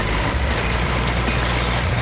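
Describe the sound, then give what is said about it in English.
Engine drone of a paving machine driving around to lay track in a kart racing video game. A loud, steady, low rumble holds unchanged for the whole moment. “You basically trade your cart for a paving machine and then drive around to lay the track.”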